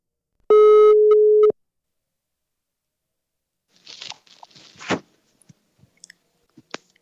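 A telephone call tone while dialing out: one steady, loud one-second beep, then silence and a scatter of faint crackling clicks and rustles.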